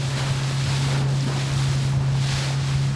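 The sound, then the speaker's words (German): A charter boat crosses rough sea off the coast of Maine with a steady low engine drone beneath continuous wind buffeting and rushing water and spray. “Mit dem Charterboot bringt mich Nate zu seinem Arbeitgeber, an einen Ort, an dem Maines Zukunft erforscht wird.”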